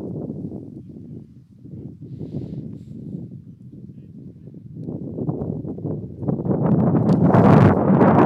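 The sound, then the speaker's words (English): Wind gusts outdoors at a baseball game in Moraga, a steady, low, rushing roar buffeting the microphone that swells and grows noticeably louder toward the end. “Wind picking up a little bit here in Moraga.”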